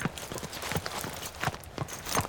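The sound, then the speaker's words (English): Horse hooves clip-clopping as a rider comes into town along the street, a steady run of many hoofbeats at walking pace, fairly faint and alone. “Old Roan Hardesty sat on his big gray horse in the middle of the street and watched Dundee ride in.”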